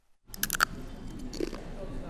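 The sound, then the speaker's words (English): Crunchy bites of plantain chips eaten while sipping fresh juice in a city mall, heard as a few sharp crackling bursts near the start over a steady murmur of background voices. “sipping fresh juice and eating plantain chips”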